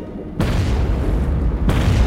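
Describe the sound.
Two deep booming explosions from grenades dropped on a submerged Soviet submarine. Each is a sudden loud blast with a long rumbling tail, and the second hits while the first is still rumbling.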